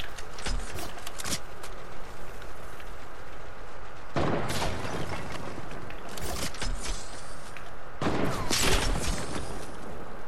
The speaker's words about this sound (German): Er hat diese komische Sniper.